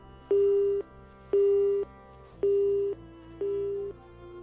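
Telephone busy tone after a call is cut off: four steady, evenly spaced beeps of about half a second each with equal gaps between them, heard alone without voices.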